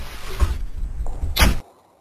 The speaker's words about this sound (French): passons par là. C'est la porte principale.